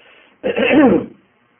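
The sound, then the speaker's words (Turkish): Harsh throat clearing from a speaker addressing teachers: a single rough, gravelly burst lasting well under a second, standing out sharply after a faint low murmur, then silence. “bu öksürmelere, tüksürmelere sakın aldırmayın siz.”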